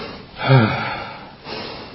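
A person demonstrates harsh, noisy breathing during meditation instruction, likened to a bellowing cow: a loud, raspy, partly voiced breath, followed by a second, softer breath.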